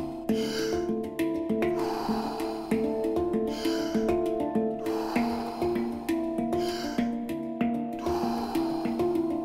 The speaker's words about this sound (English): Back into that rhythm. Breathe in, breathe out. Breathe in, breathe out.